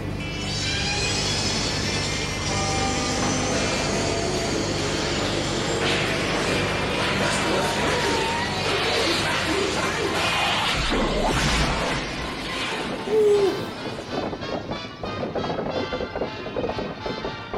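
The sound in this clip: A time machine sound effect ending in a bumpy landing: a dense, loud whirring sweep with layered tones gives way to rattling, thumping impacts near the end.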